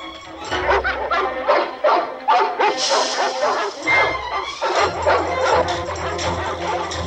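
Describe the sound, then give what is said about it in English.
Several dogs bark excitedly and rapidly while chasing through long grass and trees, with many overlapping yips and bow-wows in a steady, insistent stream. “the dogs give chase”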